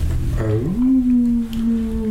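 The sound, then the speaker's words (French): A wolf howls beneath an icy far-northern sky: a single loud, long tone that swoops upward and then holds steady at a low pitch, heard alone. “Tout à coup, un loup dégaina son hurlement”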